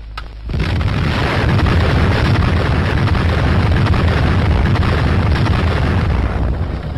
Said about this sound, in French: Certes, on pourra déplorer la pauvreté des images qui nous ont été fournies sur l'explosion dont on ne verra qu'un panache de fumée.